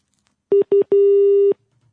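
Telephone busy signal: three steady mid-pitched tones, two short beeps then one long held tone, alone in silence.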